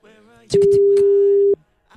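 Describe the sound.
Busy signal on an unanswered telephone call: a single steady, mid-pitched electronic tone lasting about a second, with voices talking before and under it.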